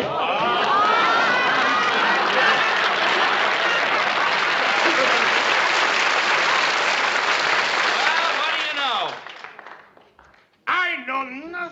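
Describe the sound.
A studio audience greets John Banner's brief cameo as Sergeant Schultz with loud, sustained applause and cheering. The clapping fades out after several seconds, and then a man speaks.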